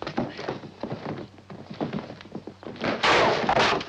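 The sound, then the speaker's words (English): A wooden chair hurled during a brawl onto a wooden platform gives a series of dull, hollow thuds and knocks, uneven in rhythm, with a louder, brighter burst of impact near the end. “Bart grabs a chair and hurls it at Johnny, but he's managed to duck out of the firing line”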